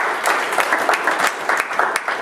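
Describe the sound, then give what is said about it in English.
Applause from an audience during a church sermon, a dense, steady wash of many hands clapping at once, fairly loud and continuous throughout with no voices standing out. “Give the Lord a hand of applause in the back.”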